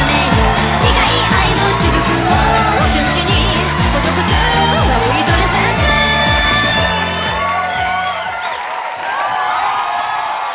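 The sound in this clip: A crowd cheers for a show guest, a loud, continuous roar of shouts, whoops and yells that holds steady for the whole stretch before easing slightly near the end.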